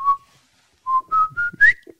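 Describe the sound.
A person whistles a tune in five short, clear notes, one alone and then four in quick succession, the last few stepping slightly higher in pitch.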